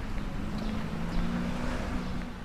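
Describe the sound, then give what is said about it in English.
Cars rumbling over the cobblestone streets of Neukölln, Berlin, on a cold winter morning: a continuous low, rough traffic rumble with a steady engine hum and no voices. “It's 8 a.m. on a cold winter morning in the German capital. Cars rumble past on the cobble streets of Neukölln, my home district in Berlin.”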